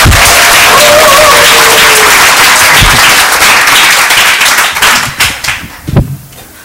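Applause from a church audience during a Sunday worship service: dense, loud clapping that holds steady, then thins into a few scattered claps near the end.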